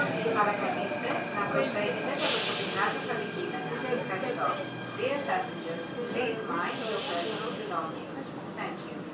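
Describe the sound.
A recorded metro arrival announcement plays over the train's speakers as it pulls into a station, in Greek and English with the Greek voice quieter. The speech rides over a steady train rumble, with a couple of brief hissing bursts.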